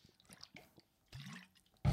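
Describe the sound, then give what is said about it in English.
Someone taking a drink of water: faint scattered clicks and sips, a low gulping swallow, then a short, louder burst at the very end. “So I'm going to take a drink of water,”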